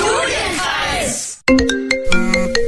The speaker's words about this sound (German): Unbekannte Nummer. Ach, da gehe ich nicht ran. Oder vielleicht doch?